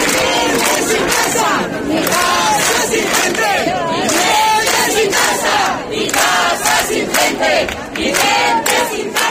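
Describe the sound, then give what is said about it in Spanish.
A protest crowd chanting at a tenants' housing rally in Plaza de España, Badajoz: many voices shout loud, rhythmic slogans in a continuous, repeating cadence with brief dips between phrases. “Este es el sonido de la tarde en Extremadura. Esta hora está teniendo lugar en la Plaza de España de Badajoz la concentración convocada por la plataforma Inquilinato Badajoz”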